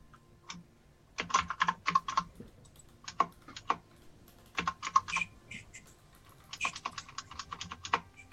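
Typing on a computer keyboard while searching for an item by name. Crisp plastic key clicks come in several quick bursts separated by short pauses. No voices are heard.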